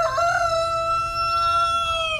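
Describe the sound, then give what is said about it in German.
A rooster gives one long, loud crow, a bright harmonic call that holds for about two seconds before dropping off at the end. “Aber so sind sie tatsächlich, die Hähne.”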